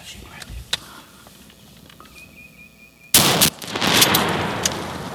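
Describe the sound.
A gunshot fired at a bird while hunting bursts out as a sudden, loud, sharp crack after a quieter stretch. A sustained rush of noise follows the blast.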